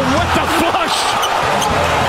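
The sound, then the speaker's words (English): Jaylen Brown's slam dunk in a live basketball game: a loud arena crowd roar with ball thuds, while an excited commentator talks over it. “Savage slam from Brown, 5 seconds to go in the third.”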